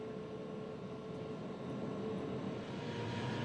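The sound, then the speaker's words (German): Steady, unbroken low rumble of a freight train on a test run through a new Swiss base tunnel, heading south to north from Chiasso toward Arth-Goldau, with broad roaring noise and no distinct clatter. “Vor der offiziellen Inbetriebnahme des neuen Tunnels fahren wir mit einem Probegüterzug von Chiasso nach Arth-Goldau, also in Süd-Nord-Richtung auf der Neart.”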